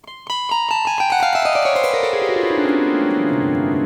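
Strings of a chord instrument strummed downward in one long sweep: many rapid plucked notes cascade from high to low pitch and ring together into a bright, sustained chord.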